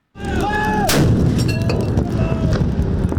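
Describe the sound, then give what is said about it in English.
Four 25-pounder howitzer guns fire a 21-gun salute at a National Day Parade. A loud, heavy boom opens, a second sharp report follows, and a rumbling roll lingers beneath. “Come 9 August, four 25-pounder howitzer guns on the Mobility 3rd Generation Draft will fire a 21-gun salute.”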